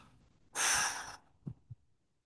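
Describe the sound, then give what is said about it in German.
A forceful breath blown out through the lips during a guided relaxation exercise, a loud, airy rush lasting about half a second that then fades to quiet. “Atme es vor dir in eine dunkle kleine Wolke und dann pustest du mit dem nächsten Ausatmen diese Wolke einfach weg.”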